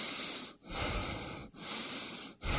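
Loud, noisy breathing in and out, as in a breathing exercise in a radio advert about smog and clean air. Heavy airy breaths run almost continuously, broken by three brief pauses.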